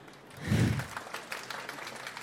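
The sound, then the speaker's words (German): Audience applause after authors' readings at a radio-drama event: a dense, steady patter of clapping with a low thump near the start, continuing at moderate level without voices. “Danke den Autoren, die gelesen haben. Vielleicht nochmal einen Applaus.”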